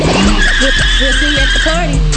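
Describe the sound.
A car revs hard and accelerates with tires squealing, a loud, continuous engine roar and tonal screech running under a man speaking.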